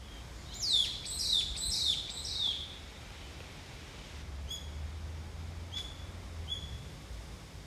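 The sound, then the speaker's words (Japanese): Small birds chirp by a pond in a wooded grove: a quick run of high, sharp chirps, then a few isolated calls, all over a steady hiss of wind through the trees. “今日はね、風があってピヨピヨ鳴いてて、これは山大池のね、木立の風の音とピヨピヨです。”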